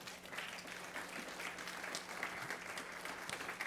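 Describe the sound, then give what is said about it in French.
Steady applause from a church audience thanking the kitchen team: dense, even clapping that is sustained and moderately loud for the whole stretch, with no single voice standing out. “On peut acclamer pour eux quand même.”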